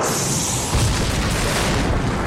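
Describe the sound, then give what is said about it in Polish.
A ball lightning explosion bursts with one loud, deep boom, its echo rolling among columns and stone walls in a long, sustained rumble that trails off. “Z jej dłoni wystrzelił kolejny kulisty piorun. Zwielokrotnione echo eksplozji przetoczyło się wśród kolumn i kamiennych ścian.”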